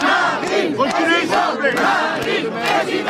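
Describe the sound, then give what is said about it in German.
Supporters of Marine Le Pen cheer and shout at a market square rally in La Flèche, France. Many overlapping voices form a loud, steady crowd roar throughout. “Die auf dem Marktplatz des Städtchens La Flèche versammelten Anhänger von Marine Le Pen bereiten ihr den gewünschten Empfang.”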